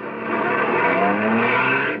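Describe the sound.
Engine of a taxi cab driving off, a steady motor drone that rises in quickly, holds at an even level for about two seconds, then cuts off, with no talk over it.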